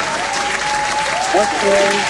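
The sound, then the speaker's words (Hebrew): Enthusiastic clapping to cheer a contestant's correct guess in a quiz game, with dense, loud applause running throughout as voices talk and exclaim on top. “כפיים באמת בענק.”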